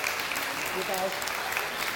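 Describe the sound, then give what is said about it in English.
Applause at an Advent church gathering: a steady, dense patter of clapping that holds at moderate level for about two seconds, with faint voices underneath. “Can we give them a round of applause?”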